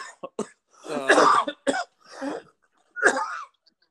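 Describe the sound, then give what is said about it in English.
Harsh coughing and throat clearing from a person with something caught in the throat, a series of several irregular bursts, some short and sharp, others longer and rasping with a strained voiced tone, separated by brief pauses and without talk. “I'm so sorry. I got something stuck in my throat”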